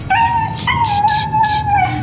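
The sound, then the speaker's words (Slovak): A dog left out on a freezing street at night whimpers and howls in a sustained high whine that wavers slightly in pitch for about two seconds, with brief brighter bursts of strain riding on top; loud and alone. “ale ak budem zajtra počuť skuvinia toho psa, zavolám rovno políciu.”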